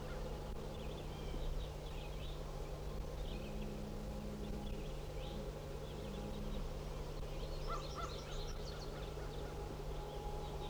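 A flock of birds at seven in the morning gives many faint honking, goose-like calls in loose bursts over a steady low drone.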